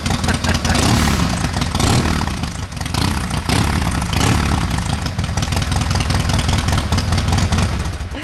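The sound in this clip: Motorcycle engines run in the morning at a motorcycle club meet, with a loud, continuous rumble that includes revving and briefly dips before holding steady again.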